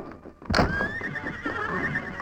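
A horse whinnies in a stable, one loud high neigh that breaks in sharply and then carries on as a long wavering cry.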